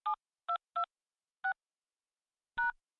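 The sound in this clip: Five telephone keypad tones are pressed to enter a voicemail password. The beeps are short, crisp and unevenly spaced, and the last one rings slightly longer.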